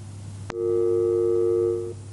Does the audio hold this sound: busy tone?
yes